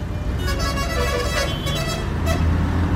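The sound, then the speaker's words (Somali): A car passing on a road, with a loud, steady roar of engine and tyre noise that holds throughout. “orod oo la hadal gawaarida wadada marayso si ay noo caawiyaan”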